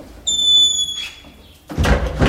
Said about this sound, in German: Er zückt den Schlüssel und schließt eine Tür in der zweiten Etage des Podelwitzer Schlosses auf.